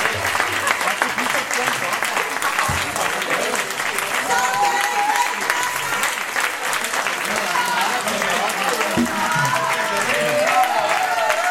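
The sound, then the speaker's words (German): Sustained audience applause: continuous, fairly loud clapping across the full length, with crowd noise and some voices mixed in. “Dankeschön. Applaus.”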